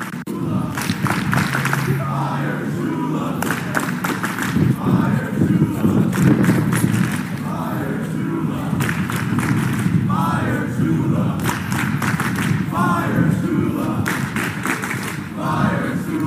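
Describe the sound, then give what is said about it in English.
A loud protest crowd on a college campus in Columbia calls to fire Shula. Many voices shout in continuous, rhythmic chants with recurring bursts of yelling throughout. “a Fire Shula protest has begun on campus, and this is how it sounds.”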